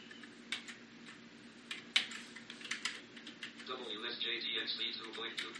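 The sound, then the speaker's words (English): Typing on a computer keyboard: rapid, irregular keystroke clicks, with a voice talking over the later part. “And I type in, I typed the wrong one, so it's a good thing I have to go back and do it again anyway.”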